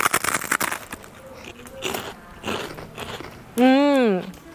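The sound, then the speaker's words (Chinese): Crunchy biting and chewing of crispy deep-fried beef skin, a quick run of sharp crackly bites at the start followed by quieter chewing, ending in a loud hummed murmur of approval. “听到我咀嚼的声音了吗？特别特别的脆，我再咬一下哈。”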